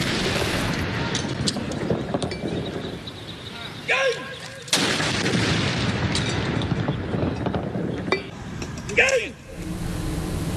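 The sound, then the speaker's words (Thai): A royal gun salute fired by Air Force air defence artillery at an air force aviation park in Bangkok: a few heavy, deep booms break through steady, dense background noise, one markedly louder than the others. “กองทัพอากาศโดยกรมทหารต่อสู้อากาศยานรักษาพระองค์โดยบัญชาการอากาศโยธินยิงสลุดหลวงณอุทยานการบินกองทัพอากาศเขตสายไหมกรุงเทพมหานคร”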